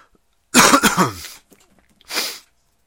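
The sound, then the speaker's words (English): Someone coughs up water: a harsh cluster of a few rapid coughs, a brief pause, then one more shorter cough, loud and alone with no talk. “still coughing up water”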